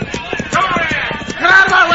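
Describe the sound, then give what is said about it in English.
Hooves clatter as a group of horses gallop with riders on horseback in a chase. The rapid, rhythmic hoofbeats run steadily under people talking. “Si, and he's being chased by a bunch of hombres on horseback. They're waving riatas.”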